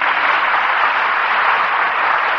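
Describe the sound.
Audience applause greets a female opera singer as she is introduced, heard as an even, unbroken wash of dense clapping at steady loudness throughout.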